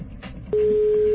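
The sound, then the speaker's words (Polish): A telephone ringback tone heard while calling and waiting for someone to answer: one steady, mid-pitched tone begins partway through and holds unbroken to the end. “Długie wołanie, no ale może ktoś musi dobiec do telefonu. Jeszcze może trzy dzwonki.”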